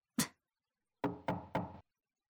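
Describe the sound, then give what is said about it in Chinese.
Knocking on a door: one sharp knock, a pause of under a second, then three quick knocks in an even rhythm, loud and alone against silence. “是哪个混蛋这个时候来敲门？”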